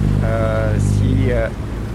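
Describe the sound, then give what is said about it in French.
A passing boat returning from Gorée Island gives a loud, steady low rumble with broad wash noise, while a person talks over it. “il y a un bateau qui passe. Ça, c'est le bateau qui revient de l'île de Gorée.”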